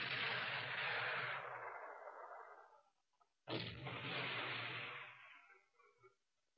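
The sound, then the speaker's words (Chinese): Enemy artillery fire: two heavy, rumbling blasts, each with a sudden onset and a long roaring decay that fades out, the first already under way at the start and the second about midway, both faint. “敌人的炮火打得很厉害呀。”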